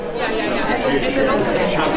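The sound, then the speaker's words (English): Journalists on a lunch break at the Alaska Press Club Conference fill the room with dense, overlapping chatter. Many voices merge into a steady, lively babble for two seconds. “It should not be a surprise that journalists love to talk. Here's the sound of them on lunch break in April at Alaska Press Club Conference.”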